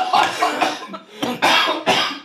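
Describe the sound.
Rapid, loud coughing from someone who choked on something while talking about Christmas baking, many hacking bursts in quick succession with brief gaps between.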